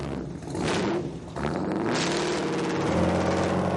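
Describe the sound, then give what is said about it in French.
A modernized 1930s hot rod car engine revs with a loud, continuous roar. The roar dips briefly, then returns, and a steady engine note rises slightly as it builds again. “Le hot rod, une voiture des années 30 remise au goût du jour.”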